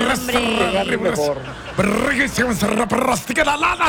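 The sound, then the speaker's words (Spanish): Recorded tiger roars played over the radio: a run of loud, deep growling roars that rise and fall in pitch, following one another steadily with only short breaks. “No, quítame los tigres. No, los tigres, no pongas los audios de los tigres.”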